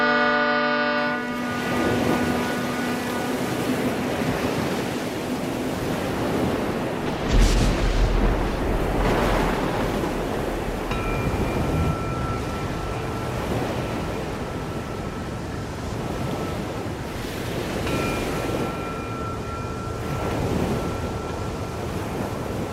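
A ship setting sail, its deep horn sounding at the very start, followed by a constant rolling roar of ocean waves that fills the rest, with a thin steady tone joining partway through.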